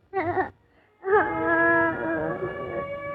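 A little girl cries, letting out a short wavering wail, then falling silent for a moment before a longer, sustained tearful wail.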